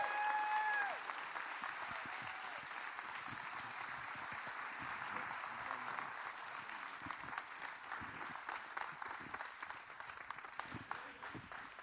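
A Temple Baptist church audience applauds a welcome for a visiting preacher from Jacksonville, Florida. The clapping is fairly soft and steady for about twelve seconds, with a few brief whistle-like tones near the start.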